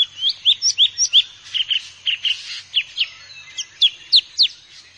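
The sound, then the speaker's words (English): A drongo mimicking other birds' calls in a rapid run of many bright, high chirps and whistles, some rising and some falling, in quick irregular bursts with short pauses. “A ki-ki, another koo-koo. What Gul spoke, a drongo uttered it too.”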